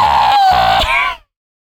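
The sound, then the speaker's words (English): A human voice imitates a cat screaming: one loud, strained, high wail lasting about a second, holding a wavering pitch before cutting off abruptly into silence. “she doesn't meow. She screams.”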